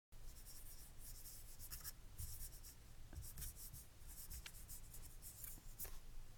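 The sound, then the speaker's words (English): Pen writing a handwritten message on a page held against someone's back: faint, continuous scratchy strokes with short breaks between words, with no talking. “I'm just going to use your little back to write my little message.”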